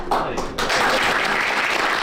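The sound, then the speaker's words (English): Applause at a cabinet meeting welcoming a new leader: steady, dense clapping that briefly thins near the start, then swells and holds loud to the end. “And a round of applause for the new boss”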